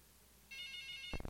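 A telephone ringtone signalling an incoming call during a prayer session: a faint, steady electronic tone with bright harmonics, followed by a few low thumps at the very end.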